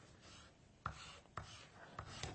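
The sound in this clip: Pencil writing on paper: faint, soft scratching strokes with a few sharper accents where the point presses down, alone and quiet.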